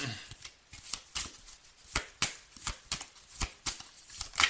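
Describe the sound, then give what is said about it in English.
Playing cards are dealt in many quick, crisp flicks and snaps with an uneven rhythm, fairly faint throughout. “May I have some more cards, please? That flew out.”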